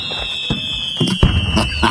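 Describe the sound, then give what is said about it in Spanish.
Fireworks at a Mexican town fiesta-style celebration: a few sharp bangs and crackling bursts break over a steady, high whistling tone. “Fuegos artificiales y todo el rollo”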